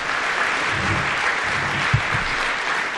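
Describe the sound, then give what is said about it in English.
An audience claps at an event in Hopkinsville honoring a local milling company on its 30th anniversary, making a steady, even wash of applause that holds at the same level throughout. “Let's give them a big round of applause.”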